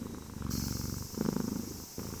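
Cat purring: a soft, continuous low rumbling throb with an even rhythm, faint and alone without voices.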